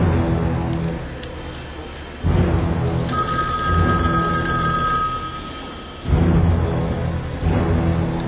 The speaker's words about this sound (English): I have to answer that phone.